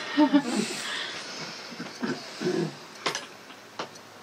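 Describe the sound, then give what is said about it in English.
A breath taken partway through reciting a refuge prayer: soft, breathy hisses and a few faint clicks and snuffles, quiet, with no words spoken. “Sorry, I just need to take a breath.”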